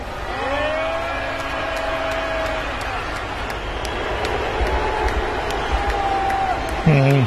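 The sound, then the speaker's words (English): Crowd booing the world's richest man as he is brought on stage at a Dave Chappelle comedy show: a sustained, droning chorus of boos over a dense wash of crowd noise that swells slightly near the end. “He kind of did take the audience on, though. So, you know, there'd be better ways of doing it than booing.”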